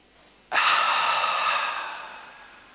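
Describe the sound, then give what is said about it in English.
A deep breath drawn in through the nose: one abrupt, loud, airy hiss that holds steady and then slowly fades, with no talking. “But just take a deep breath in through your nose. Just hold it.”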